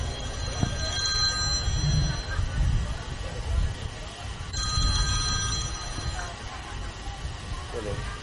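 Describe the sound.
A telephone rings during a religious gathering, with two bursts of bright, buzzing ring tones separated by a pause, over a low, steady background murmur.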